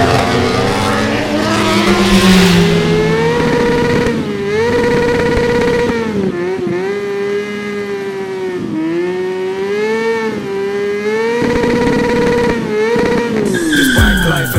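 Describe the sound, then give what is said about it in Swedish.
A racing vehicle screams at full throttle on a fast race lap, its loud engine note holding high and strong while the pitch dips and recovers several times. “He's putting the hammer down. That's the quickest lap of the race so far.”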